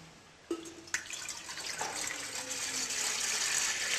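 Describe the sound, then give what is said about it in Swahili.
Water poured into a cooking pot (sufuria) during food preparation: a couple of splashy onsets open into a steady rushing pour that grows gradually louder, with no talk. “Sasa tutachukua maji, tutaitia kwenye sufuria.”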